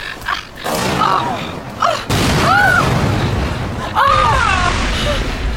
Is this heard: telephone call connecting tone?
no